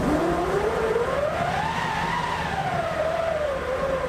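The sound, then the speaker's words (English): A hand-cranked orchestral wind machine, a large canvas-wrapped drum in a percussion section, winds up into a loud, steady howling whoosh whose pitch climbs, peaks, then slowly sinks again. “back in the percussion section, we hear the wind-up of a wind machine.”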